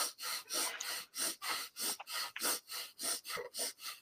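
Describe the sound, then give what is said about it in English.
A person imitates rapid hyperventilating breathing, as someone psyching up for a first backflip, with many sharp, even breaths at about three per second, loud and breathy, with no talk. “So he's hyperventilating. Okay, so he sends himself into a panic attack. So he goes like this.”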